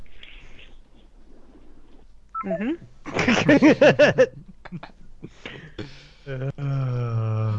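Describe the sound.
Telephone number being dialed: a quick run of touch-tone keypad beeps, several short, evenly spaced tones bunched together, with brief voice-like sounds before and after.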